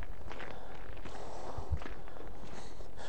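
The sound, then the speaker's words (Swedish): Footsteps walk along the edge of a wet, muddy path with patches of ice, a steady run of soft, squelching treads over a constant hiss of background noise. “Vi går på kanten här. Här är blött och lerigt det.”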